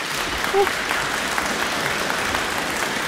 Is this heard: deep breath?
no